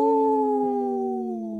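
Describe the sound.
A single wolf howls: one sustained, loud tonal call that slowly drifts lower in pitch, heard on its own.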